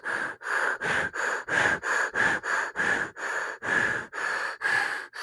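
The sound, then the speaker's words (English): Forceful breathing into a fist, with many rapid, evenly spaced huffs following one another in a steady rhythm and no talk. “I would force myself to breathe into my fist like this.”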